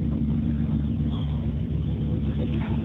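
A white rally car's engine gives a steady, loud, low rumble with a deep droning tone that holds evenly throughout, without a clear rise or fall in pitch.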